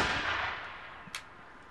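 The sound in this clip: A ceremonial rifle volley fired on command at a Liberty Tree ceremony recalling Boston Common protests: a loud burst of noise that fades over about a second, then a single sharper crack.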